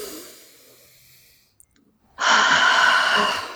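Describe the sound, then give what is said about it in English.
A deep breath during a guided tapping exercise: a faint, drawn-in inhale, a short pause, then a long, loud, breathy exhale that fills the second half alone. “Deep breath.”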